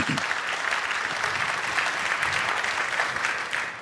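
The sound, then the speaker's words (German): Warm applause from an audience at the end of a talk, just before questions begin: dense, steady clapping that stays loud and even for the whole stretch, with no voices over it. “erstmal einen warmen Applaus, bevor wir hier irgendwie mit Fragen anfangen”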